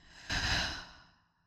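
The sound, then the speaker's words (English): A single deep exhale after a belly breath in a breathing exercise. The airy whoosh starts abruptly, swells briefly, then fades away over about a second. “take a nice, big, deep belly breath in. And exhale out.”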